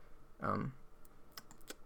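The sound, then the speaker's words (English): Faint typing on a computer keyboard as crossword answers are entered, with a few sparse, light key clicks spaced unevenly apart. “I'm going to type in soak.”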